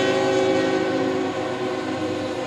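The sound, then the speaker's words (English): A train rolls past near a baseball game, its horn sounding. A loud, steady rumble and rattle fill the whole clip, with a sustained horn tone laid over it that eases off partway through. No one talks. “Train whistling by as the 1-1 comes home”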